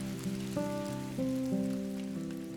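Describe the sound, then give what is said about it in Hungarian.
Light rain drizzles outside on a cold April night, a faint, steady patter of drops beneath soft sustained musical notes. “és kint szemerkélt az eső”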